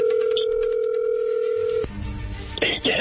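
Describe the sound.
Telephone being dialed for a call: a steady, loud dial tone holds for almost two seconds, then cuts off abruptly into a stretch of clicks and handling noise with brief bright bursts.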